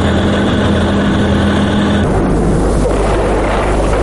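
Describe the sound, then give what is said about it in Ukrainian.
Tanks drive through the streets of Moscow in August 1991, a loud, continuous heavy-engine rumble with a deep low drone that shifts slightly partway through. “15 серпня 1991 року. Вулицями Москви їдуть танки.”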